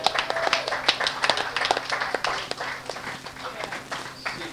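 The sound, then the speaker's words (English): Audience applause at a dating game show: a scattering of sharp handclaps at moderate loudness that thins out toward the end, with voices mixed in. “Sam Freelander, folks, give another round of applause.”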